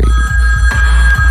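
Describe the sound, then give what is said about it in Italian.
Telephone ringing for an incoming call, a steady electronic ring with a regular throbbing pulse that repeats throughout, with no voices. “Attenzione, c'è una telefonata in arrivo.”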